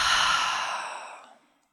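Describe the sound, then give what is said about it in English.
A deep breath is let out through the mouth in one long, breathy sigh. It starts loud and airy and fades steadily to silence over about a second and a half. “Let's take a really deep breath in through the nose And through the mouth, let it out.”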